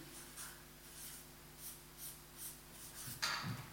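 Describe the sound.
Handwriting with a pen on paper: a faint run of soft, rhythmic scratching strokes over a steady low hum, ending in a slightly louder scratchy rustle.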